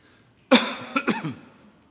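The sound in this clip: Coughing from a piece of bread stuck in the throat: a sudden throaty cough, then a few quick, weaker, rasping bursts that fade into quiet.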